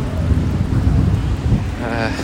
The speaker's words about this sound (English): It's raining pretty heavily.